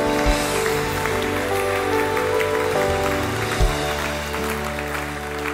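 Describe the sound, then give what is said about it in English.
A church audience applauds after a prayer, producing a dense, even wash of clapping that lasts throughout, with sustained musical tones held underneath. “Come on, let's put our hands together and congratulate everyone who said that prayer.”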